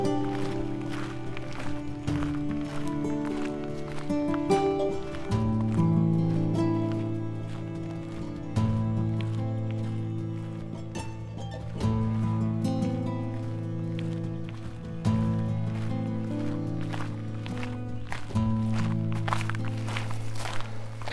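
Footsteps of two people walking steeply uphill off-trail at dusk: many steady, rhythmic steps over a low, sustained tonal drone.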